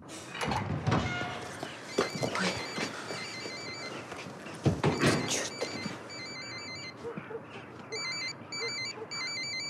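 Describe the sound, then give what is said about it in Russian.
A mobile phone rings with a repeating electronic melody of short tone bursts. It enters after several seconds of mixed, louder noise and continues in regular bursts to the end. “звонит по мобильному”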